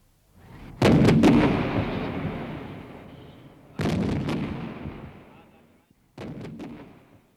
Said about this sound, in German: Erstes, zweites und drittes Geschütz! Feuer!